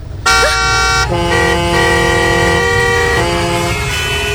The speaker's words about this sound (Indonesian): kalau lampu hijau, jangan lupa pencet klakson